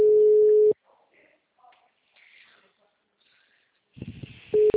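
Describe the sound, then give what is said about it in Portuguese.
Telephone ringback tone on a call waiting to be answered: a loud, steady single-pitch tone at the start, a long quiet gap with faint scattered noises and a brief muffled voice, then the same tone returns at the end. “fala pra essa mulher atender esse telefone, mano.”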